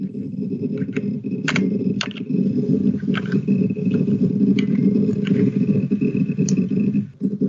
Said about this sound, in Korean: 이야, 소리가 아주 죽여주네요, 정말. 무슨 하드 드라이브 ASMR 해야 되겠다.